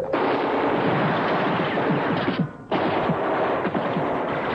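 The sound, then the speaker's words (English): Dense, continuous gunfire from soldiers' weapons during a wartime fight in a mountain pass: a loud, crackling barrage that drops out briefly near the middle, then resumes at full intensity. “Hold your fire!”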